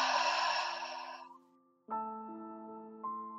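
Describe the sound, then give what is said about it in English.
A slow, deep belly breath exhaled in one long, airy rush that gradually fades away, then soft sustained musical tones come in afterwards. “take a couple of very deep breaths all the way into your belly. Breathe in through your nose, out through your mouth.”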